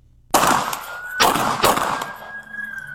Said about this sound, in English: Now he just did 17 shots.